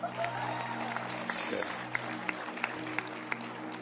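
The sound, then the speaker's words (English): Audience clapping at a festive gathering with cake and jollof: faint, sharp hand claps that begin scattered, then settle into a regular beat in the second half, over a steady low background hum. “Clap your hands for them.”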